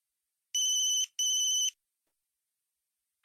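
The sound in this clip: A telephone ringing with no answer: two short bursts of a high, steady electronic ringtone with a brief gap between them, then silence.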